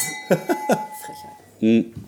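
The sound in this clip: Glasses clink together in a toast: three quick, bright chimes with a lingering ring, followed by a brief voice.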